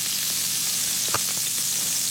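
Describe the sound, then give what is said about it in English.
Sizzling from a hair-pressing machine searing hair, a press likened to a ravioli maker. A steady bright hiss runs throughout, with one brief louder crackle near the middle. “We press the hair in my newly designed Sizzle Fringer 5000. It's like a searing ravioli maker.”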